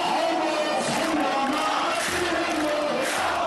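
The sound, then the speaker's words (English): Hundreds of demonstrators fill the centre of Homs during a 2011 protest, a dense, steady crowd roar of many overlapping shouting voices that stays loud throughout. “That's the sound of hundreds of demonstrators filling the centre of Homs back in 2011.”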